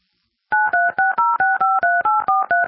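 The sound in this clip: A touch-tone phone keypad dials eleven digits in a quick, even rhythm. The loud dual-pitched tones begin after a short silence.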